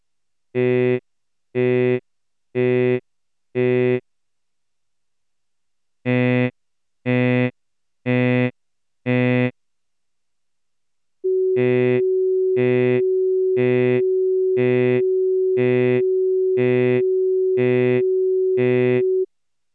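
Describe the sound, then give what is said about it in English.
Synthesized vowel tones: four buzzy pulses of an I vowel, a pause, four pulses of a nasal N vowel, another pause, then eight I-vowel pulses sounding over a steady, unbroken pure capturing tone. “First we play four cycles of the I sound, and then four of the N sound, and finally eight cycles of the I sound with the capturing tone.”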